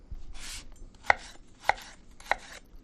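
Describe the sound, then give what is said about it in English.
A knife dices food into rough half-inch pieces for relish. Three sharp chops at a steady interval stand out among softer cutting strokes, with no talk. “So I'm just dicing this into roughly a half inch dice because it's going to cook down in the sugar and the vinegar.”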